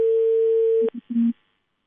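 Telephone line tone on a call being dialled to a residential property management office: one long steady mid-pitched tone, a click, then a couple of short tonal bursts, with no talking.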